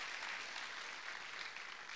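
A church audience applauds the Lord during a worship service, a dense, steady wash of many hands clapping that holds at an even level throughout without a break.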